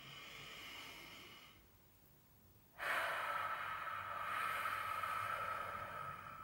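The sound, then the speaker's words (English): Deep human breath, soft and airy: a faint breathy inhale, a short quiet pause, then a longer and slightly louder exhale, with no talk. “Oh, I feel like I haven't taken a breath. Let's just all take a breath, shall we?”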